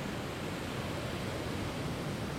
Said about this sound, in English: just enjoy the soothing sounds of the waves coming in.